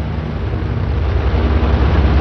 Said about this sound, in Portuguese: De repente, meu corpo foi jogado para cima. Era a explosão.